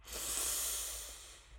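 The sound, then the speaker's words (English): A long, deep breath drawn in by a group, heard as a steady, soft, breathy hiss that swells and then eases over a low background hum. “please take two long breaths with me. Breathing in as my hands go up”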